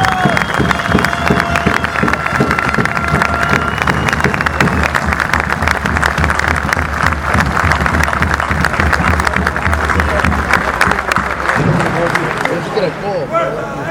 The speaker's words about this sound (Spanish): Demos un fuerte aplauso a todos los gremios que nos están apoyando.